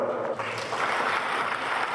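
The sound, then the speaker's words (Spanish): Applause from a community gathering, with the audience clapping for themselves: a smooth, continuous wash of clapping that holds at an even, moderately loud level for about two seconds without a break. “Y lo primero que quiero es que entre todos nosotros, y solamente para ustedes, se den un gran aplauso por esta”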